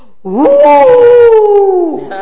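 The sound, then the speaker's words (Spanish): A human voice imitates a wolf howl: one long, loud, drawn-out tone that rises quickly at the start, then sinks slowly and drops away at the end. “It's the wolf. Ese es el lobo.”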